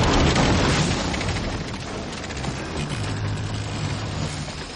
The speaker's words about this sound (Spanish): El barco a la deriva choca contra el muelle cercano.